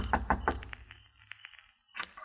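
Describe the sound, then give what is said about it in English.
Knocking on a house door at night: three sharp, quick raps, then a few lighter, scattered taps and a final louder bump. “As I went in at the court, I saw a dim light from inside, so I knew somebody was there. I kept knocking.”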